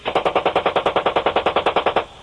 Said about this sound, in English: Roger, he's wounded. Hit him. Fire hitting the truck. Hit the truck and him.